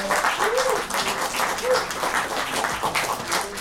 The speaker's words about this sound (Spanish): También un aplauso.